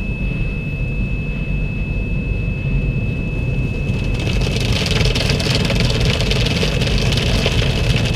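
A car engine runs steadily as the car is pulled through a car wash with rotating rollers. The low rumble is constant, with a thin steady high tone above it. A broad hiss grows louder from about halfway through. No one speaks.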